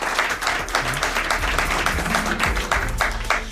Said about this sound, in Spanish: Carlos Mangado y Guillermo Sierra, a quien pido también un aplauso para ellos.